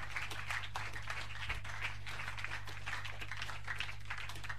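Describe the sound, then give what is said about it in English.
A church audience claps their hands in a steady, dense patter of many hands that continues throughout, over a low hum. “If I clap, I want you to clap your hands better.”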